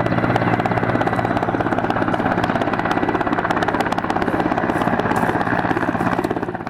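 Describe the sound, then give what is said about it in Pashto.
Apache military helicopters circle over the central areas of a city near an airfield, their rotors beating in a rapid, steady, loud thumping that continues throughout and eases slightly at the very end. “د بوس هوایي ډګر په څنډو کې د میشتو بهرنیو ځواکونو او اپاچی هلیکوپټر ساتونه کیږي چې د ښار پر مرکزي سیمو باندې ګرځي.”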